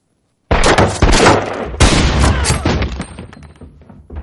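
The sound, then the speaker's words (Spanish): Gunfire aimed at a ceiling in a western drama: a few loud, sharp cracks burst out in quick succession after a moment of silence. They trail into a rumbling, gradually fading decay. “dispara.”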